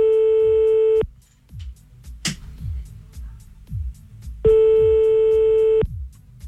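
Ringback tone while a telephone call is being placed: a steady tone sounds for about a second, then a pause with faint low background sounds, then a second identical tone.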